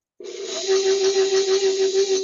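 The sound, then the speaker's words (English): An electric mixer kneads sticky bread dough. It starts abruptly into a steady motor whine, then settles into a rhythmic pulsing churn as the level rises slightly. “I'm going to add a little more flour because mine's still quite sticky. I'm going to turn my mixer on, and now we're into the part where we're going to knead this until it's fully formed dough.”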